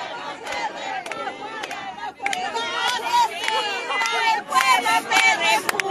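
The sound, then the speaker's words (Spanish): Protesters shout and chant a slogan in unison outside a municipal building in Peru, rallying against President Dina Boluarte and Premier Alberto Otárola; loud, surging crowd voices rise and fall in waves, with scattered individual shouts. “Ahí podemos escuchar esta arenga que se hizo famoso en el en las protestas, ¿no?”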